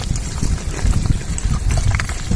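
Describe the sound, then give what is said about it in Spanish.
Lava from an erupting volcano advancing slowly toward the streets of a neighbourhood under evacuation, heard as a continuous dense crackle over a low, steady rumble with no pauses. “El volcán ruge con más fuerza y la lava, como escuchamos, sigue avanzando de manera lenta pero imparable.”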